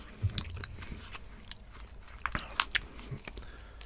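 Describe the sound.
Crunchy biting and chewing of a toffee-apple-flavoured sweet with an eggshell-coloured shell: a few sharp cracking bites scattered among softer, irregular chewing noises, with no talk.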